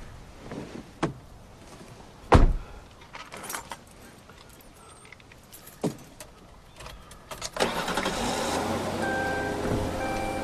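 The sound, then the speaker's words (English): A car door shut from the driver's seat in an empty field: one loud, low thud among a few lighter clicks and rustles, then a steady mechanical hum that carries on to the end. “He gets in the driver's seat and shuts the door.”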